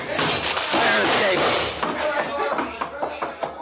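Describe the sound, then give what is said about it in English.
A window being smashed in an old crime drama: a loud, noisy crash of breaking glass and thuds, then scattered smaller knocks as it dies away. “There he is, halfway down. He busted a window.”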